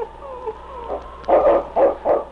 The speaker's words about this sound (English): The great dog circled back and forth across the trail. Finally, he paused and gave a sharp bark.